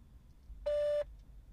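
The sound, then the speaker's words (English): A single clean electronic beep, the answering-machine tone on a beverage company's customer-service voicemail line, holding one steady pitch for about a third of a second between quiet stretches. “Please leave a message after the tone, and we will return your call shortly.”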